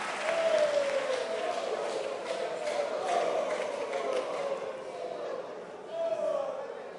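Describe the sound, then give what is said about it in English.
A church audience clapping their hands during a service, a dense, steady wash of claps with a voice speaking over it throughout. “Clap your hands for the Lord and be seated.”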